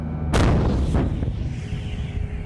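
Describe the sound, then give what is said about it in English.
Heavy artillery shells fired at bunkers in Iraq's Anbar province: a sharp, loud blast followed by a weaker second report, then a long, rolling low rumble that slowly fades. “That was the sound of heavy artillery shells being fired at Islamic State bunkers.”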